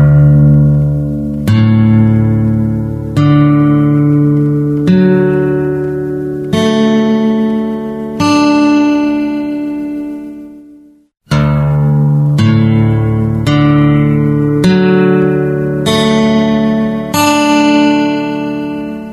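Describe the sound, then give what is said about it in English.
Guitar strings tuned to open D (D, A, D, F sharp, A, D) plucked one at a time from lowest to highest. Each note rings and decays before the next, then after a short silence the rising sequence is played again. “Example 1 shows the Open D tuning from low to high. It sounds like this.”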